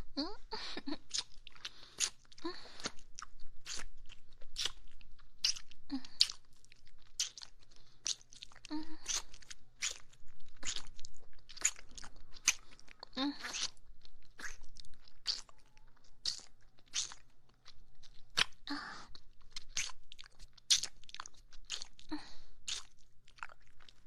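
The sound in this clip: Crunchy chewing of a paper-wrapped snack, a steady run of many crisp bites and crunches that continues without a break throughout.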